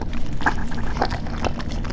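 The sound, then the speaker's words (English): Dog sounds: a few short yelp-like bursts spaced at fairly even intervals over a dense, rumbling low background noise. “That goddamn dog, he's gonna lap us up.”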